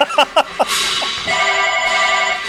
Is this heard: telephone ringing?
yes